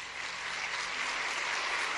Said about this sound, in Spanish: menores de 20 años, démosles un aplauso